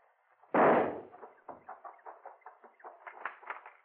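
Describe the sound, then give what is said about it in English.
Gunshots fired at a tunnel: one loud sharp report rings out and decays, then a rapid, fairly regular string of many weaker pops follows. “Flip a few shots at the tunnel while I make a run for those rocks there.”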